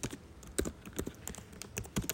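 Keyboard typing: a steady run of many sharp, irregular clicks at a fairly quiet level, with a few louder keystrokes scattered among lighter taps and no voices over them.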